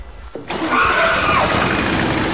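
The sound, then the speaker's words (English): A generator starting up, with a short low onset about a third of a second in. It then settles almost at once into a steady, loud mechanical drone that runs to the end. “Mike twists a control and the generator starts up”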